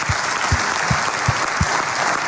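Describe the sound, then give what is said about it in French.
Applause for a guest on a radio show, a steady wash of dense clapping with a regular low thumping running beneath it throughout. “Ah, applaudissements pour Christophe.”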